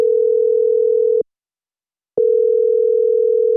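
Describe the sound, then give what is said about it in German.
Telephone tone heard while calling a cantonal office for nature and agriculture. A steady, mid-pitched electronic tone is broken once by a short silence, then resumes unchanged, with no voices. “Also habe ich dort angerufen.”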